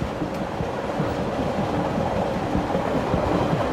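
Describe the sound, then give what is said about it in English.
A Via Rail passenger train rumbles along the rails toward Edmonton, Alberta, through the Canadian Rockies. The rolling noise is steady and continuous, with no voices. “Via Rail's supercontinental passenger train number 4 is cruising toward Edmonton, Alberta.”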